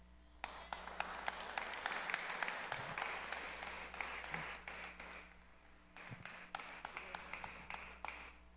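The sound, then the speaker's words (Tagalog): Audience applause, hand clapping for a man at a gathering with an interpreter: faint, scattered claps that build into a thin patter, thin out briefly, then pick up again as sharp individual claps. “Give him a hand clap.”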